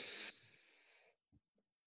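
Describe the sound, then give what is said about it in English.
Deep breath drawn in through the nose during a guided meditation: a soft, airy inhale of about a second that tapers off, followed by a couple of faint small clicks. “bringing your mindfulness to hearing your breath, making it a deep breath, inhaling in through your nose.”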